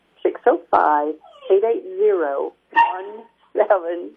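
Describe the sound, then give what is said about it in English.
A dog barks and whimpers in a run of high, harmonic yelps and whines, some sliding in pitch, with short gaps between the bursts. “I think your dog wants to be on the air too.”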